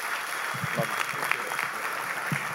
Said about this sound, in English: Can you stand and give him a great big hand? Come on, let's stand together. Let's give Aaron, let's give the man of God a great big hand.